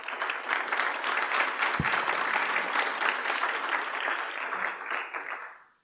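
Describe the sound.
Warm audience applause welcoming a panel of speakers at a talk on community colleges and tech workforce, steady clapping that fades out at the end.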